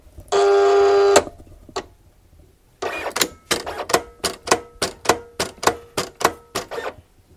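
A cutting machine cuts a stencil sized for a 30 cm-wide cement tile. A steady whirring hum lasts about a second, then a quick, evenly spaced series of sharp mechanical clicks and taps repeats many times.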